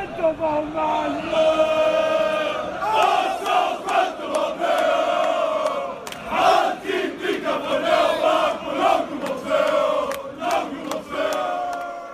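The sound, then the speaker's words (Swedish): Malmö FF football supporters chant a club chant. A crowd of voices sings a loud, rhythmic, pulsing chant that carries on for about twelve seconds. “Och han ackompanjeras av några Malmö-supportrar i en MFF-ramsa.”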